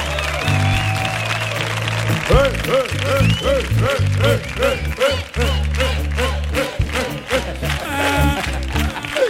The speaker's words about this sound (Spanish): Y aquí está este público que suena de esta manera tan potente en el show del comandante Lara. ¡Vamos! ¡Gente buena!